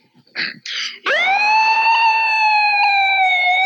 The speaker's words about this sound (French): Cette sirène-là, elle donne l'impression qu'il y a quelque chose d'important, de puissant qui vient